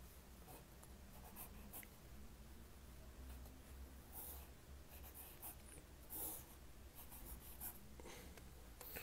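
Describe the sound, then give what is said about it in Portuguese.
A pen drawing on paper as a diagram is sketched for a lesson: faint, steady scratching with a few brief, sharper strokes, and no voices. “Vou desenhar aqui para vocês, tá?”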